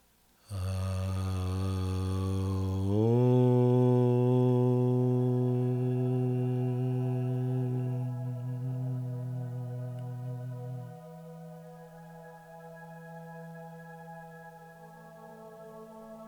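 Chanted Om from a meditation session: a long, low, sustained vocal drone that steps slightly higher early on and holds steadily for many seconds, thinning and softening toward the end.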